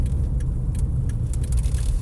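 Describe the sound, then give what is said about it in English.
A car driving, heard from inside, as a steady low road and engine rumble that stays even throughout with no voices. “I do this podcast while I'm driving.”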